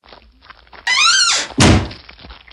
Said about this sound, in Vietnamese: Nhà vua đặt viên ngọc vào một cái trương lớn và khóa kỹ lại.